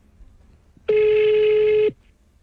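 A telephone rings once with an electronic tone: a single steady, buzzy tone holding one pitch for about a second, then cutting off, alone with no voices.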